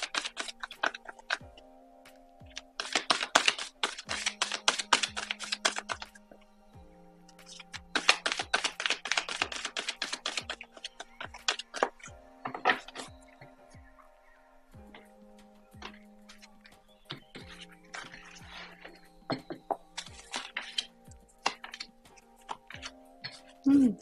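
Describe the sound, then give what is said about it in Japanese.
Tarot cards are shuffled in two long crackling, rustling bursts, followed by lighter scattered flicks and taps, over faint sustained background tones. “カードシャッフルしますので少々お待ちください。”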